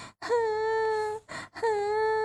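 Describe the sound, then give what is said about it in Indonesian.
Wailing cries from a lone story character weeping at night, a long sustained moaning tone, a brief catch, then another drawn-out wail at a steady pitch, fairly loud and alone. “Malam pun tiba, suara-suara seram mulai terdengar. Pika menangis sendirian.”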